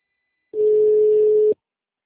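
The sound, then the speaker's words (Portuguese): A phone tone after a dropped call: a single steady, mid-pitched beep lasting about a second, alone between stretches of silence. “Oi, a ligação caiu.”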